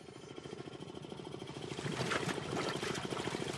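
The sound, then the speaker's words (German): An air compressor feeding breathing air through a thin hose to a gold-mud digger in a mining shaft in the Philippines: a steady, rattling mechanical drone with a busy pulsing texture, growing slightly louder partway through. “Im Hintergrund surrt ein Kompressor. Er liefert die Atemluft.”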